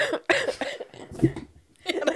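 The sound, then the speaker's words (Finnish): A coughing fit: a few harsh, raspy coughs in quick bursts with short breathy gaps between them, fairly loud and without clear speech. “sai yskän kohtauksen vaan”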